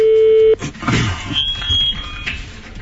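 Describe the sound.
A telephone tone sounds as a random call is placed: one loud, flat, steady beep lasting about half a second, then an abrupt cut to low rustling noise.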